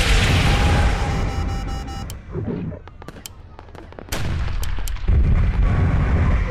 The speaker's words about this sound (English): Missile inbound!